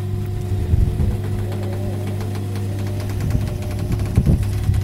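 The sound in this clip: A steady motor hum drives one half of a motorised observatory dome closing, with a low droning tone and faint harmonic whine holding evenly throughout, broken by a few slight mechanical surges toward the end.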